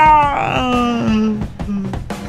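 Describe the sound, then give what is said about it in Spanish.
A person vocally imitates a scream: a wailing, moan-like cry with gently falling pitch that starts loud and fades softer, ending in a few short broken bursts. “Y un grito que iba de más a menos.”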